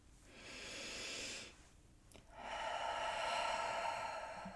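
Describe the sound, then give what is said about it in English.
A single deep, conscious breath: a soft, airy inhale, then a short pause, then a longer, fuller breathy exhale. The breath is faint and heard alone, with no talking. “let's stop and take one of our nice deep conscious breaths.”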